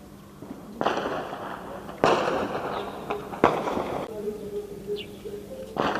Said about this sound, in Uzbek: Kecha Burundida harbiylar davlat to'ntarishi uyushtirganidan beri poytaxt Bujumburada portlashlar, o'q ovozlari eshitilgan.